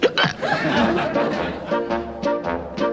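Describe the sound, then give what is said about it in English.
Hiccups from a cartoon character, a few sharp voiced gulps breaking through a continuous, chuckling, voice-like stream of sound that stays fairly loud throughout. “Well, I got the hiccups.”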